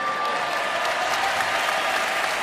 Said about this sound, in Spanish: es fantástico escuchar esos aplausos que piden la última